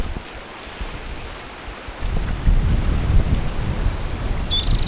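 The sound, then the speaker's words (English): Strong wind buffets the microphone outdoors, a dense low rumble that turns noticeably louder and rougher after the first two seconds and keeps roaring steadily to the end. “Very windy.”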